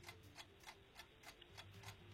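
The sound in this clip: Steady ticking of a quiz countdown clock: a run of evenly spaced, crisp ticks, about three per second, soft and regular with no talk over it.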